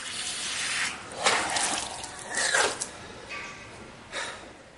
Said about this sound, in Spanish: Daniel va hasta el baño y se lava la cara en el lavabo.